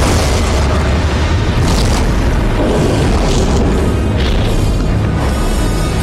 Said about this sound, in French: On tire un bloc de ciment sur du plancher de bois.